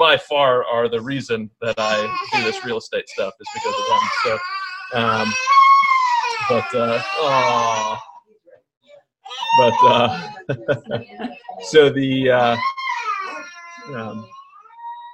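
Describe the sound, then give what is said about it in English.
Young children crying and playing in the background, their high cries and squeals rising intermittently beneath an adult who talks almost continuously. “I'm sure you can hear my kiddos in the background here having a great time”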